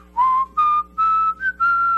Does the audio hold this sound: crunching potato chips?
no